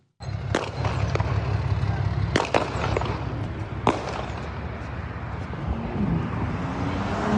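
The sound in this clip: Gunfire from a gun battle with a carjacking suspect on a Houston, Texas freeway: several sharp, cracking reports, some in a quick cluster, cut through a steady, loud noisy background.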